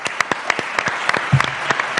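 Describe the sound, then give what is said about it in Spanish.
Applause for members of a folk association at the Palacio Superunda in Ávila, heard as sparse, separate sharp claps at an uneven pace rather than a full wash, with a brief low thump midway. “Vamos a dar un aplauso”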